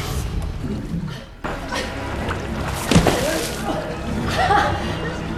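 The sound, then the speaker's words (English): Bath water sloshes and drains away down a plug hole after a man's foot kicks out the plug, with continuous wet swirling and splashing and a brief louder splash near the middle. “His foot kicks a plug, and the liquid quickly drains away. While the man sits up, coughing and spluttering, the light is sucked down the plug hole, and the bath he's in empties.”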